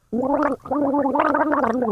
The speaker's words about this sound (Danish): Du drikker litt, ja. Drikker litt vann,